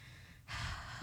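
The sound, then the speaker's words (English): A person breathes heavily, with a single quiet, breathy exhalation that starts sharply midway and holds to the end. “You're breathing heavy for no reason.”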